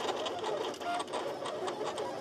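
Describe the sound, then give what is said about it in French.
A vinyl cutter whirs and clatters while cutting out a map of Switzerland, giving steady mechanical noise with rapid, uneven pulses at a fairly low level. “le découpage d'une carte de la Suisse grâce à une imprimante vinyle. C'est d'ailleurs le travail qui était en cours ce matin lors de notre visite au Test Lab.”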